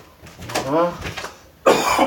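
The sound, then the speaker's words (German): Coughing from someone with a scratchy throat: a short voiced throat sound, then a harsh, loud cough bursts out near the end. “Ich muss ein bisschen husten, weil eine kratzt im Hals.”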